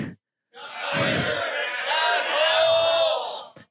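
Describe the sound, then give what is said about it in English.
A screening audience at Friday the 13th Part 3 in 3D cheers and yells together in congratulation. It builds into a loud, sustained roar of voices for about three seconds before cutting off abruptly. “Hey, Tyler, we're here at Friday the 13th, Part 3, 3D, and the audience has a very special congratulations for you for your wedding. Here it is.”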